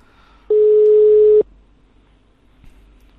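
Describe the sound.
A single steady, mid-pitched telephone tone sounds on a call being redialed and lasts about a second, then cuts off, leaving faint line hiss and a small click.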